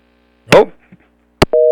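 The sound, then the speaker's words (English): A telephone busy signal after a phone line drops. A brief voice fragment is followed by a click, then a steady, loud dual-tone beep begins. “Well, we lost the phone line. Oh, well, isn't that funny? We're talking about how technology's working, and it fails us.”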